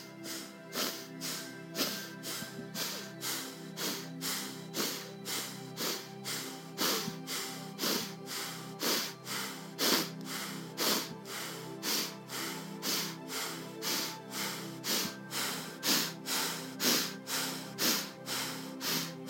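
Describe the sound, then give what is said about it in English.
Rapid breathing in and out through the nose during a breathing exercise, a long run of many quick, evenly spaced, airy snorts in a steady pulsing rhythm that never lets up. “breathe a little bit faster through the nose, only in the nose and out the nose. This is going to be hyper-oxygenating the brain and the body.”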